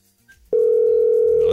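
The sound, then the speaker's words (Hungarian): A telephone ringing on an outgoing call to a radio listener: after a brief quiet moment, a loud, steady single-pitch ringing tone starts and holds to the end. “Hívjuk a nap hallgatóját, aki nagyon dolgozik.”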